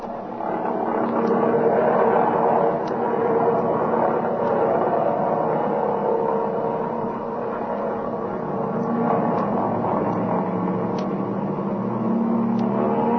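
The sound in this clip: An airplane's engine drones continuously as it takes off from a runway, a loud, even hum that dips briefly midway and then holds steady.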